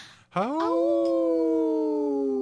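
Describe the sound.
A Minnesota wolf howls with a single long cry that sweeps sharply upward at the start, then settles into a sustained, steady, clear tone that carries on to the end.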